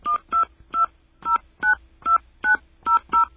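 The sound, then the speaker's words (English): Telephone keypad tones dial a destination number on a calling-card service: nine short, crisp dual-tone beeps with brief gaps between them, alone and fairly faint. “Please enter your destination number, followed by the pound sign.”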